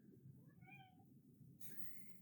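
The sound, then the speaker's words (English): Short, soft meows from a cat behind a door, faint and high-pitched, over a quiet steady hiss. “If you hear little meows in the background, it's just Colby. She's just sticking around on the other side of the door.”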